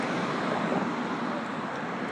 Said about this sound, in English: here come the real cops. They're passing by the street with the other cop car.